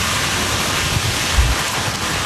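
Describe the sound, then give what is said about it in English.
Rain and wind from a Category 1 hurricane with 75-mile-per-hour winds on Hawaii's Big Island: a dense, steady roar of heavy rainfall and rushing wind with low, buffeting rumbles underneath. “The Category 1 storm pounded Hawaii's Big Island with rain and 75-mile-per-hour winds”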